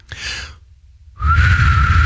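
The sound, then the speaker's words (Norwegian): Failed attempt at whistling that comes out as plain blown air, two breathy hissing pushes with a faint airy tone riding on the second, longer one, loud and close with no real pitch. “dette er det beste forsøket jeg har på å prøve å plystre.”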